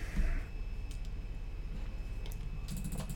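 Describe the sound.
Faint typing on a computer keyboard: sparse, light key clicks scattered over a low, steady background hum, with no clear rhythm.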